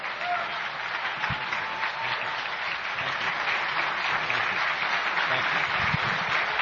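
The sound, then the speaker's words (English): An audience applauds Senator Mark Kelly and Congresswoman Gabby Giffords, with sustained, dense clapping that holds a steady, strong level throughout. “Guys, give it up again. Give it up again for these two American heroes, Senator Mark Kelly, Congresswoman Gabby Giffords.”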